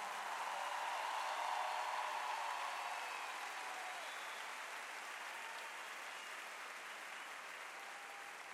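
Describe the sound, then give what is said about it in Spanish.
Audience applause for two women guests on a show: a broad wash of clapping, fairly faint, strongest in the first few seconds and then easing slightly and holding steady to the end. “Fuerte, fuerte el aplauso, por favor.”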